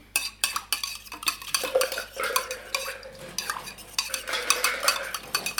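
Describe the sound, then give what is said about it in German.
A long spoon stirs sticky orange marmalade with bits of peel in it, producing many quiet scraping clinks in an uneven, repeating rhythm. “schon mal umrühren, damit die Orangenmarmelade sich ein bisschen verteilt.”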